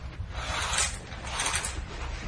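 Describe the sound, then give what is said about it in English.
Curtains being drawn back, with two scraping swishes of runners sliding along a rail, fairly steady and moderately loud with no talking. “Just wait there a minute, Mum, and I'll draw these curtains back.”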